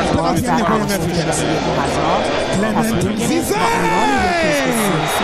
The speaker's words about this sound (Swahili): Yanga rasmi wametinga fainali. Shangwe linasikika kutoka maeneo mbalimbali ya Jamhuri ya Muungano wa Tanzania